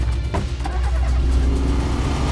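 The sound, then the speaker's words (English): A car peels out and accelerates away, giving a continuous, loud, broad rumble of engine and road noise that fills the whole clip. “Yeah, he's peeling out of here.”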